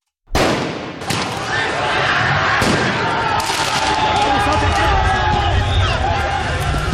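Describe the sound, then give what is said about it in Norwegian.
Football riots in France after Paris Saint-Germain won the men's Champions League: loud, continuous crowd roar and shouting, broken by a few sharp, explosive bangs like fireworks or firecrackers. “Dette lyden av omfattende fotballbråk i Frankrike i går kveld og i natt. Etter at de franske mestrene Paris Saint-Germain vant mesterligaen i fotball for menn, kom feiringa ut av kontroll flere steder.”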